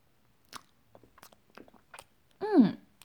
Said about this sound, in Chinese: 这块牛肉可真好吃。